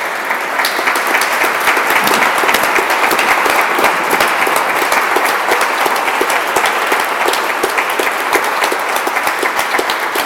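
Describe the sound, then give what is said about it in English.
An audience applauds after a lecture series: dense, steady, fairly loud clapping sustained the whole time, with no voices over it. “no, you don't have to applaud after this”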